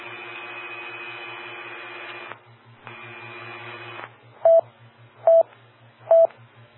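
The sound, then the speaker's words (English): Telephone auto-dial DTMF tones: two longer buzzy tone bursts are followed by three short, evenly spaced beeps. A low, pulsing hum runs underneath the whole sequence. “Auto dial.”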